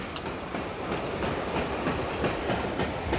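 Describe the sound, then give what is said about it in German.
A fully loaded freight train thunders past as a heavy, steady roar with rhythmic clickety-clack from the wheels running underneath. It stays fairly even throughout, with no voices. “dem vollbeladenen Güterzug nach, der Richtung Süden vorbeidonnerte.”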